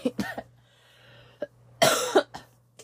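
Coughing from someone with a week-long cough and sore throat: a few short, sharp coughs, a pause, then a louder, harsher cluster followed by fainter ones, with no talk.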